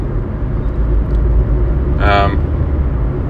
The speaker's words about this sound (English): If I fucking put any sort of pressure on the accelerator, the wheels are spinning.